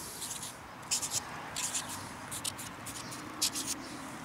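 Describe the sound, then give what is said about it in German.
Writing scratches across the back of a stove tile as a signature is added, with many short, faint scratchy strokes in an uneven rhythm against quiet background hiss. “So, jetzt darfst du auf die andere Seite schreiben.”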